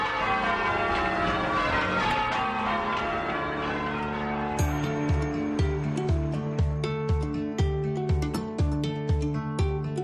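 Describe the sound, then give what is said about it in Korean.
Church bells of different weights ring in full-circle change ringing: a wash of sustained bell tones gives way to many clear, evenly paced strikes in a regular repeating order, with no voices. “각각 무게가 다르기 때문에 서로 다른 속도로 움직이게 돼요. 그래서 하나의 소리를 낼 수는 없어요. 이런 종소리를 전조타종이라고 부르죠. 주의 깊게 들어보면 아주 정확한 순서에 따라 종소리가 울려요.”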